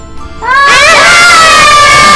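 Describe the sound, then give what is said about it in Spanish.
Friends trapped behind a closed door scream in terror: loud, high-pitched wavering cries break in after a short quiet moment and continue unbroken to the end. “Oí los gritos aterrorizados de mis amigos.”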